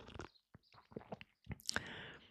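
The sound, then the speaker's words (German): Sipping coffee: a few soft, wet mouth clicks and brief slurps, then a longer airy sip at the end, all quiet and with no talking. “Ich erlaube mir noch mal einen Schluck Kaffee zu trinken.”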